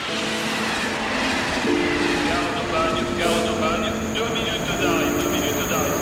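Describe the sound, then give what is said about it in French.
A train arriving at Aubagne station makes a steady, heavy rail rumble with sustained humming tones, and murmured voices run underneath. “Et oui, on a échappé aux grèves, notre train vient d'arriver, gare d'Aubagne, il fait beau et ça fait du bien.”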